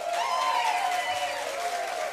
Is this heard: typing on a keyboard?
no